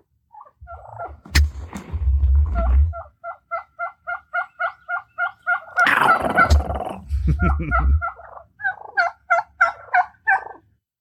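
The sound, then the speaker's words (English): A recorded wild turkey gobbles, with a few loud, rattling gobbles breaking into long, evenly paced runs of sharp, mid-pitched yelps that repeat many times in a steady rhythm. “literally had never heard a turkey before bought the tape and then started trying to sound like a turkey. So, oh, there we go. There it is. Y'all listen.”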